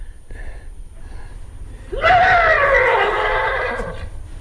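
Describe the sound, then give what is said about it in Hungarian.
A thirsty horse gives one long, loud whinny that climbs quickly and then slides slowly downward in pitch, breathy and quivering, over a low background rumble. “Ez egy szomjas ló nyerítése.”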